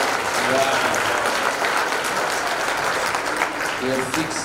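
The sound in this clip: Audience applause for a baker at an awards event: loud, steady clapping from many people fills the whole clip, with a few voices calling out over it.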